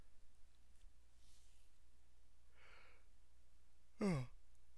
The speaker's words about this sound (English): Sorry, that's a yawn.